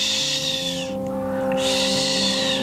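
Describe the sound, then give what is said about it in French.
A barn owl screeches in long, harsh, hissing shrieks, broken by a short pause in the middle, loud over a steady low hum. “Donc c'est la dame blanche, celle qui chouinte, hein, et qui effraie, comme son nom l'indique, par son chouintement. Le cri de la chouette effraie, c'est un”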